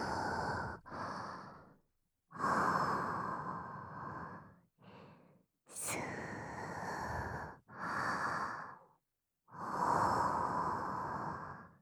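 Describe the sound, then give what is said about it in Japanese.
Deep breathing, a slow calming in-and-out with several long, breathy exhalations and shorter inhalations separated by brief pauses, fairly loud and with no talk. “ほら、落ち着いて落ち着いて、深呼吸。”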